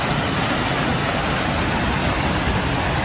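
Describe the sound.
A heavy downpour of rain during stormy weather makes a dense, unbroken hiss. It stays loud and even from start to finish.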